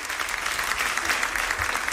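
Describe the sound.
Applause from a crowd at an event with the Pope, as a rosary is handed over: dense, steady clapping that stays at an even level for the whole clip.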